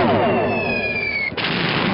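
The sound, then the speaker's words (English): Weapons fire a loud, continuous roaring blast at an enemy target. A high whine slides downward through the noise and cuts off abruptly, while the heavy roar keeps going to the end. “arm weapons. Target enemy. Ready? Fire!”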